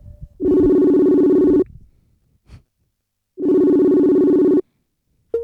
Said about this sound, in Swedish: Ja, men telefonsamtalet, det kommer ju här.